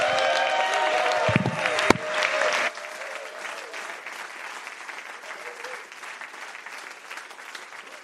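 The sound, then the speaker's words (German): An audience at a Christian conference applauds with dense, steady clapping, fuller and louder at the start, then settling into a quieter, even patter that continues to the end. “Komm her, lasst euch Jesus mal einen ganz kräftigen Applaus geben.”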